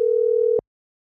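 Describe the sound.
A telephone ringing tone plays while a call is placed to a radio contest winner. One steady mid-pitched tone holds for about half a second, then cuts off abruptly into silence.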